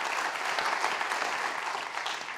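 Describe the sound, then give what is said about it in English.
Audience applause in a church for the pastor, a dense, even wash of many hands clapping throughout without a break. “Can we give Scott a round of applause and just thank him for his life and ministry?”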